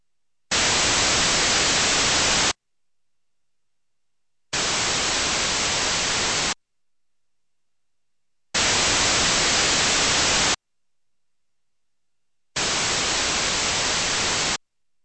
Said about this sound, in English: It is played first with identical signals at the two ears, then with independent samples of broadband noise at the two ears.